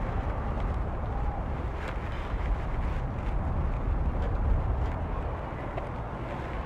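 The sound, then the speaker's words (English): Wind blows outdoors on a chilly day near a baseball field, a steady, loud, low rumble buffeting the microphone throughout with no clear breaks. “Oh my God, that wind is bothering.”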